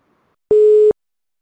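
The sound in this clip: A telephone tone sounds as an outgoing call is placed: one steady, mid-pitched electronic beep about half a second long, loud and clean, with silence on either side.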